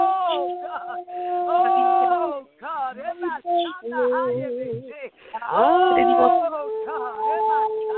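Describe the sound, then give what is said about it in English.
People wail and moan in travailing prayer with long, sustained voiced cries that slide up and down in pitch. The cries stay loud, broken by a few short pauses. “And then we can just release the sound of travail.”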